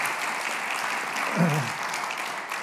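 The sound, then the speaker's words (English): A church audience gives a round of applause for a speaker, a sustained, even wash of many people clapping at a moderate level with no clear pauses. “Yeah, you can give him a round of applause, too, because he's worked hard.”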